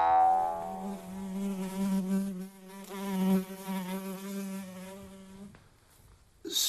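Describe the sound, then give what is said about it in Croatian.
A fly buzzes around a person's face and lands on the nose. A loud, droning, wavering hum holds for several seconds, rises and falls in strength, then cuts off abruptly near the end. “Možete li mi, molim vas, maknuti muhu s lica?”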